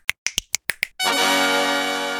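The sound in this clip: Six crisp finger snaps in a quick, even run, then a bright sustained musical tone that holds steadily to the end, used as a segment sound effect.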